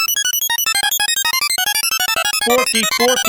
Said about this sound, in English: If you like the audio trophy, you're going to love this sting even more.